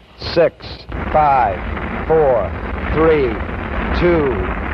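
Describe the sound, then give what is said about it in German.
Apollo 11's rocket engines roar at liftoff as a steady, rough, low rumble that runs under a voice talking throughout. “All engine running. Liftoff. We have a liftoff. 32 minutes past the hour. Liftoff on Apollo 11.”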